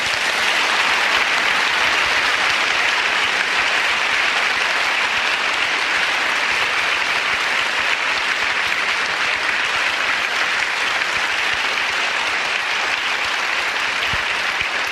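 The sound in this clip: Sustained, loud audience applause welcoming a speaker. Dense, even clapping holds steady for the whole stretch without fading.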